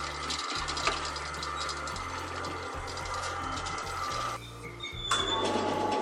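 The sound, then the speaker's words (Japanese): An automatic agricultural seeding machine covers seed trays with soil, giving steady mechanical clatter, ratcheting ticks and a low running hum that shifts in tone partway through. “あ、綺麗にこう重ねられていくわけですね。もう全部自動ですけど、でもすごい機械ですね、これ。”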